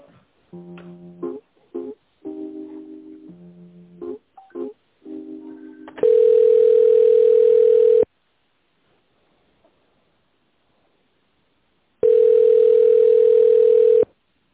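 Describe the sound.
Telephone tones while a call is transferred to another department: a brief sequence of stepped melodic beeps, then two long steady tones, each about two seconds, separated by several seconds of silence.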